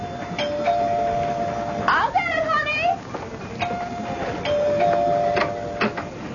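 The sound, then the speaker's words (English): A house doorbell rings twice, each a steady sustained tone of about one and a half seconds, a few seconds apart, with a brief warbling sound between them. “Daddy was in the study when the doorbell rang.”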